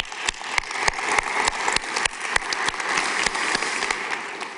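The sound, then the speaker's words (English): Audience applause at a church service: dense, steady clapping with many sharp individual claps throughout, sustained at an even loudness with no voices. “If you're in the room, would you please give our online television audience a big hand?”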